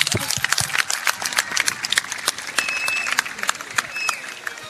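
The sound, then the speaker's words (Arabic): An audience breaks into applause, many hands clapping in a dense, crackling patter with sharper individual claps popping out here and there, sustained throughout at a fairly loud level. “باللي تصفيقة كبيرة لي.”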